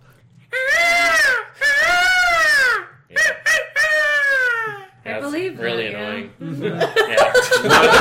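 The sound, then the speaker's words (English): A human voice imitates a peacock's call with a few long, loud, high wavering wails, then shorter, rougher yelping cries. “Yeah, that's really close to a peacock.”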